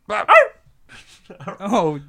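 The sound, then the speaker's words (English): A wolf in a video game yelps and whines as it is killed with an axe: two sharp, loud yelps at the start, a short pause, then a longer strained whimpering cry at the end. “I got a dead wolf on our hands now.”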